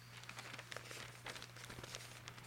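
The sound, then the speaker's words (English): Paper crinkling and rustling as a fold-out page is opened out of a rare book on the history of mathematics, a faint run of dry crackles and soft scrapes over a steady low hum. “As I fold out this nice page.”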